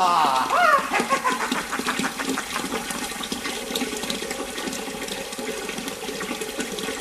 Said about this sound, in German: Ja, dann läuft ja das Wasser.